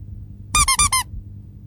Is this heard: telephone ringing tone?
no